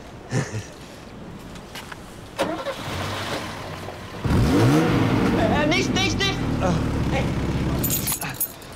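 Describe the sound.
A car engine is started after spark-plug work: a few faint knocks and rustles, then the engine catches abruptly and runs loud and sustained with some revving, while people talk briefly.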